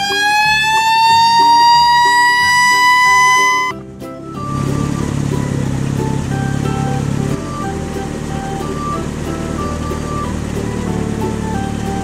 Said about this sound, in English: Red fire truck.